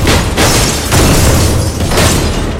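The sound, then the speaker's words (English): Loud gunfire from rows of armed men shooting at an SUV, a dense roaring barrage of overlapping shots that swells in a few surges without a break. “Wheelman passes by parked vehicles and rows of armed men who open fire on the SUV.”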